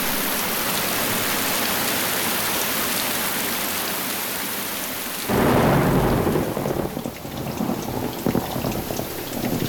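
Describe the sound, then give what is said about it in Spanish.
Heavy rain pours in a steady, dense hiss, then a loud, deep rumble of thunder breaks in about halfway and rolls on beneath the downpour until the end. “Lluvia otra vez, no, por favor.”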